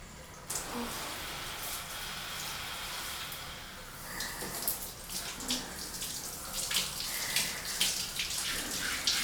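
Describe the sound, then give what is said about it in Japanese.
Warm water runs gently over someone's back during a scrub wash, a steady soft hiss of flowing water with light splashing that grows a little busier in the second half. “お湯柔らかに流してるから、こうして”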